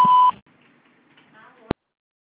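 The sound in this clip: A single electronic beep from a Claro voicemail system, a steady mid-pitched tone lasting about a quarter second, followed by near silence with faint hiss and one sharp click.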